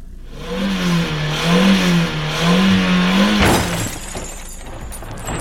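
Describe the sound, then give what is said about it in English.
A car engine revs hard as it drives through a doorway, its loud buzzing pitch wavering up and down, then a sharp crashing smash breaks in and gives way to a lower, rougher rumble. “You just drove through a doorway! I said I was the fastest, not the most elegant.”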